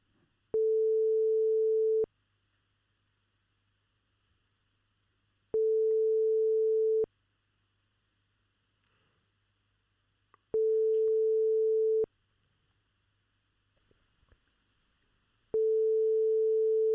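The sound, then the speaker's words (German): Telephone ringback tone from an unanswered call: four steady, mid-pitched beeps, each about one and a half seconds long, spaced evenly with long silent gaps between them. No voices are heard. “Ja, er geht nicht ran. Wir probieren es gleich einfach nochmal.”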